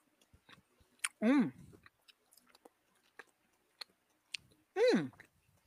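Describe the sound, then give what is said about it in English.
A raspberry-flavoured candy is bitten and chewed, giving soft moist clicks and small crunches. Two short hummed voice sounds with falling pitch rise above the chewing. “I just took a little bite. It seems to have Raspberry.”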